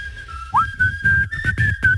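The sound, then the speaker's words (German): Someone whistling the end of a tune on a live radio show, a bright, clear melody line with a quick upward slide near the start, carried over low rhythmic thuds. “Achtung, zu Ende pfeifen.”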